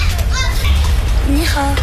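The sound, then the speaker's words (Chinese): Children play and chatter in the sunlit alleys of an old town, their high, lively voices calling out over a loud, constant low rumble. “古城中阳光洒在巷道里，孩子们穿梭嬉戏”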